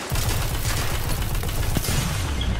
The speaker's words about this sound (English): Sniper hit me.